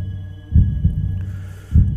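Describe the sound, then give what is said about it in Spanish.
An old man's heartbeat: a few dull, low thumps in a slow, uneven rhythm over a steady low hum. “Era el latido del corazón del anciano y aumentó mi cólera así como el redoble del tambor sobreexcita el valor del soldado.”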